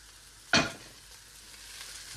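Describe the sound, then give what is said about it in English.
A single sharp pat on cooled, clumpy rice as it is broken up in a frying pan bursts out with a sizzling hiss, then fades to a faint, steady frying sizzle. “So I want you to break up the clumps in the pan. You can kind of hear me kind of patting away, pat, pat, pat, breaking up those clumps in the pan.”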